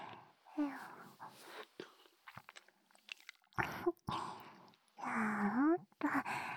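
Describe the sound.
Crunchy chewing comes as a series of crisp, quiet bites and crackles, spaced irregularly between breathy, whispered voice sounds.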